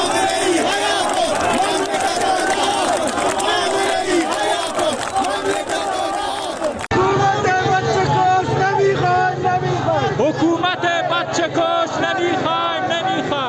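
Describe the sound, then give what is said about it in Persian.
Protesters in the streets of Zahedan chant loudly together as one dense crowd, the rhythmic shouting steady throughout with an abrupt cut about halfway. “این صدای مردم در زاهدان در امروز بود”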